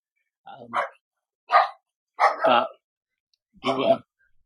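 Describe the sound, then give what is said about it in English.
Dogs bark four times, sharp and loud, with pauses of roughly a second between barks and silence around them. “Excuse the dogs.”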